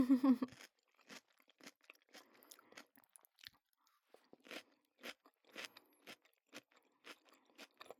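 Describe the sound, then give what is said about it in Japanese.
Crisp crunching and chewing of cucumber topped with miso mayonnaise: many sharp, irregular bites and munches, fairly faint, after a brief louder sound at the very start. “きゅうりに味噌マヨとか無敵いただきます。”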